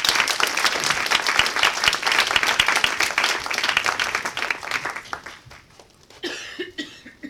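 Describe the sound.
Audience applause and clapping as a guest speaker is welcomed: lively, dense clapping that gradually thins and fades, followed by a voice beginning to speak near the end.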